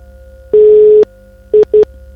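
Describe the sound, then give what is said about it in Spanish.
An incoming phone call alert sounds as one long, loud, steady beep followed by two short beeps at the same mid pitch, over a quiet background hum. “Te está entrando una llamada”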